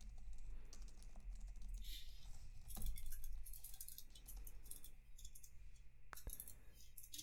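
Rapid typing on a computer keyboard, with many dense, uneven plastic key clicks and clacks clattering steadily throughout and no voices.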